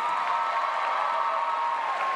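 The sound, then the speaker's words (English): Sustained audience applause greeting a show's creators and star, a dense, even wash of clapping that holds at a steady level throughout. “Please give a wild round of applause to the show's creators, Ryan Condal and Carlton Cuse, and our star, Josh Holloway.”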